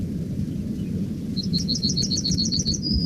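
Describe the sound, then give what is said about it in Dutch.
A practising male yellowhammer sings a fast, high trill of many repeated notes, ending in a short drawn-out note, over a steady low background rumble. “geelgorsman. Na zijn trillertje volgt vaak een slepend geluidje en je hoort dat dat steeds beter lukt.”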